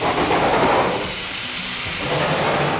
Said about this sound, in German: Ja, es geht hier gar nicht um ein Tier, sondern es geht um eine Lokomotive.